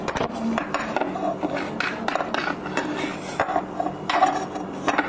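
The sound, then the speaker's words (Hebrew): A plate and cutlery are handled while cheese is served, giving several irregular clinks, taps and knocks over a low, steady background. “בואי, תביא את הצלחת שלך. צלחת, צלחת שלך, בואי נשים לך גבינה.”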